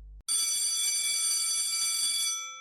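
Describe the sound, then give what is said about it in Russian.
An electric school bell rings at break time in one loud, harsh, steady ring that lasts about two seconds before fading out. “звонок. Вова в класс плетется снова.”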